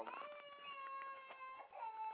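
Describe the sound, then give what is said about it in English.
A small boy whines with a drawn-out, wavering, nasal cry. Its sustained high tones dip briefly near the end and then resume, faint and unbroken throughout. “my little son is back in there whining for no reason, and he's just about to sit there and just whine because he just wants my attention”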